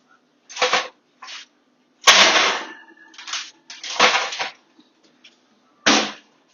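A pan of short rib being taken out of the oven with oven mitts: several sharp clattering knocks and longer metallic scraping bursts with short silences between them.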